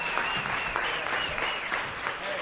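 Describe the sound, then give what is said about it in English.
Audience applause as a volunteer is called up at a live show: a steady, dense wash of many hands clapping, fairly soft and even from start to finish. “round of applause for Tim”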